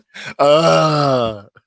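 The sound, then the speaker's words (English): A single drawn-out human groan, low and voiced, lasting about a second and fading at the end, with a brief shorter vocal sound just before it. “I need to put a groan button on here.”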